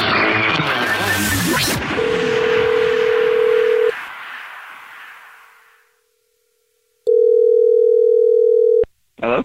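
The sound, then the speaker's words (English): Telephone ringback tones as a call goes out to a listener: two long, steady, mid-pitched tones, each about two seconds, separated by a pause, following a brief burst of other sound at the start. “so we're calling you back to ask you what your dirty little secret is”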